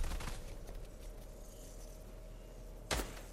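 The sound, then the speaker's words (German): Gunfire in the video game Fortnite, Trio Zone Wars mode: a few quick shots at the start, then one louder sharp bang near the end, over a steady low hum. “Oh mein Gott. Sie schießen ihn einfach ab.”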